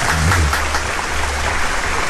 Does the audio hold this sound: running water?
no